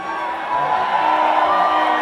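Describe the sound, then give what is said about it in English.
Cheering and whooping from a comedy show audience: a crowd roar with voiced shouts that swells noticeably after the first half second and holds steady. “some of you are cheering, some of you are flipping me out.”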